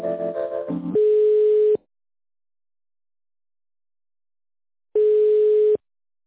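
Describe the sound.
A telephone ringback tone plays while a call is being transferred. A short burst of other tones comes first, then two steady, loud one-second tones about four seconds apart with silence between them.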